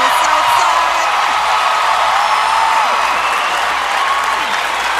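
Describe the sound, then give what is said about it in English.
Dense audience applause with scattered cheers and whoops fills the air continuously at a steady, loud level, interrupting a woman's speech at the start of an awards show. “a woman who had to restart her speech from all the applause.”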